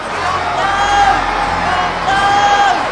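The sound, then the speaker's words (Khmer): Crowd shouting back at a governor who is pleading for a prisoner's release, a loud, dense roar of many voices that holds steady across the whole three seconds. “លោកពីឡាតចង់ដោះលែងព្រះយេស៊ូវលោកក៏មានប្រសាសន៍ទៅគេម្ដងទៀតប៉ុន្តែគេស្រែកឡើងថា”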